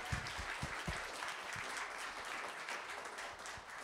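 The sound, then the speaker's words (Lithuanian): Audience applause in a bar: dense, steady clapping from many hands fills the whole stretch, with a few heavier low thumps near the start and an even, sustained level throughout. “Ar galim plojimais parodyti, kiek mūsų čia šiandien daug yra?”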